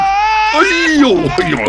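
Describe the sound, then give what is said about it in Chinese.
An infant cries while being carried in someone's arms, a loud, high wailing cry that holds one steady tone before breaking into wavering, falling sobs. “你别哭了，我抱你一路了”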